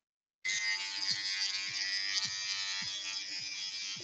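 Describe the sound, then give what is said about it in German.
Electric shaver switches on after a brief silence as someone shaves, giving a high, steady buzzing drone with faint regular ticks underneath and no talking. “Können Sie ein bisschen in ein anderes Zimmer gehen beim Rasieren? Muss ich doch nicht. Krieg ich doch so hin.”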